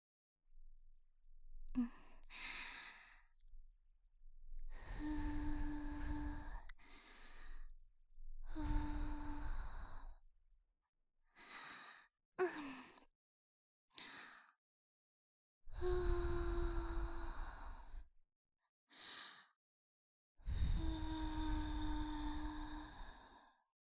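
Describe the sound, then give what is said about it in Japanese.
Gentle blowing goes deep into the ear as many soft, breathy puffs separated by pauses. Several puffs carry a faint voiced, sigh-like tone. “まずは、耳の奥まで、ふうふうするよ。”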